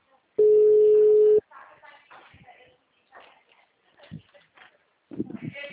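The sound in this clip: A steady, loud telephone line tone follows a dropped call, holding one flat pitch for about a second before cutting off. Talking follows it.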